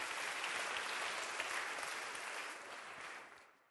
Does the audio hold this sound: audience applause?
yes